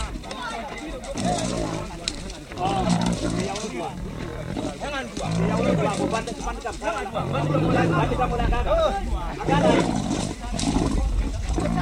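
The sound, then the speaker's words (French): A lion roars as it charges with a trap still on it during a bow hunt, catching a Fulani herder. The heavy, loud roaring runs for nearly twelve seconds, with excited voices and shouting mixed in throughout. “Et soudain, c'est la catastrophe. Le lion charge avec son piège, rattrape un berger Peul.”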